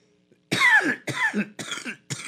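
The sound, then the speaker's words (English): Someone coughs and chokes in four harsh, loud bursts about half a second apart, the first the longest. “Excuse me, that got me choking on that one.”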